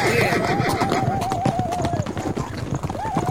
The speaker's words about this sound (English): White man, ride like devil, but white horse know when to stop.